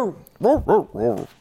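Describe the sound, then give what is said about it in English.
People imitate a dog barking, in honour of the Georgia Bulldogs. Their voices give a few short, loud, rising-and-falling 'arp' barks in quick succession. “That's barking as a sign of our newfound respect for the Georgia Bulldogs, because that's what we are.”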